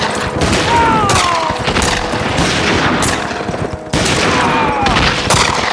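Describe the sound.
Rifle volley gunfire from Texans kneeling beside their horses to shoot at charging mounted warriors. Several sharp, heavy cracks stand out over a loud, continuous clatter of shots.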